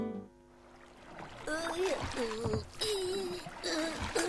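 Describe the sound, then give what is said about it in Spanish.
A small rowing boat being rowed through water, with splashing and sloshing that runs steadily through most of the stretch and includes a few stronger surges. “Me voy a Buenos Aires remando en barquito.”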